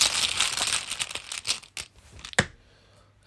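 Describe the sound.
Rustling and crinkling of a bag as someone rummages inside it to draw a game token: dense scratchy rustling with a few sharper crinkles that thin out toward the end.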